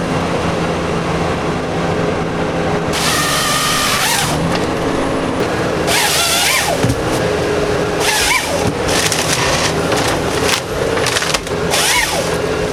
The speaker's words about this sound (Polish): Dźwięk, który mieliśmy okazję właśnie wysłuchać, był to dźwięk pracy harwestera. Ścięcie drzewa, przewrócenie, okorowanie i pocięcie na wymagane kawałki trwa, uwaga, około 45 sekund.